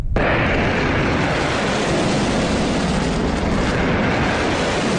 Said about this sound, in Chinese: 随着震天动地的巨响，一枚枚炮弹如同利剑出鞘，拖着橘黄色的尾焰直刺天空，腾起巨大的烟尘，瞬间笼罩了整个发射阵地